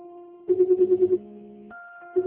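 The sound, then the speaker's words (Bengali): A telephone rings with steady electronic tones that break into a quick pulsing burst, then shift to a higher tone. No voices are heard. “কয়েক মাস পরের ঘটনা, হঠাৎ এক বিকেলে phone করলো পাবন।”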